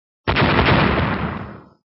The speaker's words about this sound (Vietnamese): Ngao Tổ vừa dứt lời, một tiếng nổ rầm trời liền phát ra trên đỉnh đầu của gã